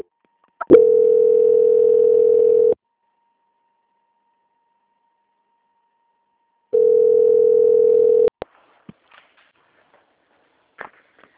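Telephone line tone during a call transfer: two long, steady, mid-pitched beeps, the first about two seconds and the second about one and a half, separated by silence and followed by a few faint clicks.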